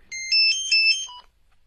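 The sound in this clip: A mobile phone ringtone plays a short melodic phrase of high, bright tones for just over a second, then cuts off into silence.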